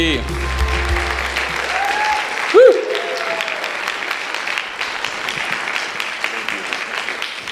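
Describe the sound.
A church audience applauds to welcome a deacon coming up to speak, with sustained, even clapping from the crowd. A short loud vocal call cuts through the applause partway in, and other voices can be heard under the clapping.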